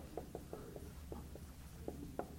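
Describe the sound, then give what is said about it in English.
Someone writes by hand in capital letters, making a series of short, faint scratching strokes in an irregular rhythm with small pauses between letters. “I don't know why I'm writing all caps. I'm just used to writing that.”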